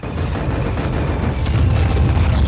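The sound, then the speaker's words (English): Bombs exploding on a ship in a film scene: a deep, sustained roar of heavy booms that rumbles on without clear pauses, loud and alone with no voices. “That's a lot of bombs.”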